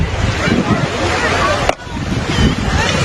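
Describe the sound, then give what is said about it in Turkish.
Sea waves wash onto Mudanya beach in Bursa as a continuous rushing surf, mixed with gusty wind noise and a brief dip in level partway through. “Burası Bursa'nın Gözde sahili Mudanya. Kanalizasyondaki atık sular arıtılmadan doğrudan denize bırakıldı.”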